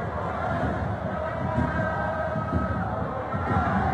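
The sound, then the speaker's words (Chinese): Fans of both sides cheer on their teams at a football match in the first half, a dense, steady crowd roar that holds level without a single standout shout. “两边的球迷呢，一直呢都是在为球队加油助威。”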